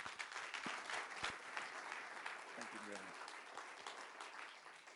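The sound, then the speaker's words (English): An audience gives applause to welcome a speaker at a morning event, a fairly quiet, even wash of many hands clapping that continues for the full five seconds without a break. “So put your hands together and welcome him as he comes.”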